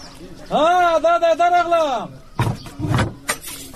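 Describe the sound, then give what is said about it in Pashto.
Knocking on a door: a raised voice calls out, then a few heavy, sharp knocks follow in an uneven rhythm. “ته درېږه چې دا دروازه بیا ور وټکوم”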